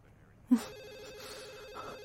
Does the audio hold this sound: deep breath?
no